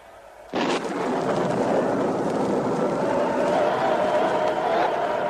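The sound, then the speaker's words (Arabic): A thunderous, sustained roar of crumbling masonry, the Tower of Babel collapsing onto people in a radio drama, bursts in suddenly after a brief quieter moment and rumbles on, dense and loud, to the end. “مولاي، ما هذا الصوت الهائل؟ البرج، برج بابل يا مولاي، انظر إنه ينهار، ينهار على الناس.”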